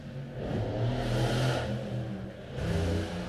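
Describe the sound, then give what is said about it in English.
A car arriving outside the house gives off a low, steady engine drone that swells in loudness twice, easing off between the surges. “Wow, my ride's here. I'm sure you heard that, even though it was outside of my house.”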